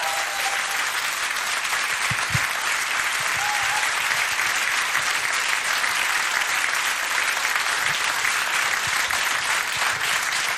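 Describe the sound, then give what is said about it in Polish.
Dense, sustained audience applause follows a band's concert. The clapping stays loud and even throughout, with no voices standing out above it. “Teraz jeszcze brawa. Bardzo proszę.”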